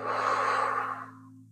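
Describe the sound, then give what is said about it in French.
A single long, fairly loud breath during a guided deep-breathing exercise, a rushing airy sound that holds steady and then tapers away, with a low steady hum underneath and no talking. “Inspirez profondément par le nez et sentez votre ventre, votre cage thoracique qui monte.”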